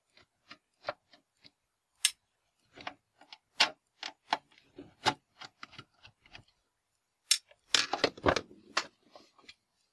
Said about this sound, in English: I already removed 3 of the 5 screws, and I will undo the next 2.